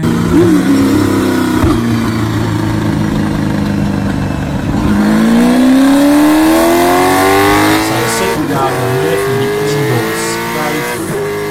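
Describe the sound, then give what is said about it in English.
A V8 race car engine revving hard, loud and alone, its pitch sinking and then climbing in a long rising sweep before dipping and rising again. “Do you want me to put a bit of V8 sound? I'll edit some in now just for you.”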